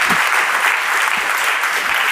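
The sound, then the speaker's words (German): Audience applause at an event, heard alone as a continuous, even patter of many hands that stays steady without breaks. “Ein bisschen Applaus.”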